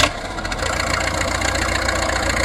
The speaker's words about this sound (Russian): мальчики, на аэродром! Заводим моторы!